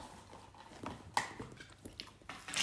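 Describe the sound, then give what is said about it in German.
A raw cucumber is bitten and chewed, a few crisp crunches standing out from softer, wet chewing sounds, all fairly faint and uneven in rhythm. “Ich esse gerade eine Gurke.”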